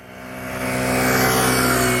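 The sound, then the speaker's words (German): A car drives a slalom at 40 km/h, swerving without braking during a driving-school exercise. Its engine gives a steady, droning hum that grows louder over the first second and then holds. “Man fährt nachher, komm mal bitte hier rüber, mit 40 km/h hier vorbei. Ja. Fährt ein Slalom sozusagen. Ja. Kann losgehen, ausweichen ohne abbremsen mit 40 km/h”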